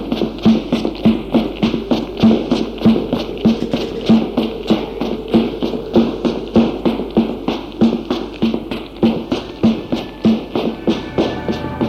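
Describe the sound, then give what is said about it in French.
Running footsteps of someone fleeing in panic: many quick, evenly spaced thudding footfalls keeping a steady, urgent rhythm from start to end. “Il panique et se sauve en courant. Il court.”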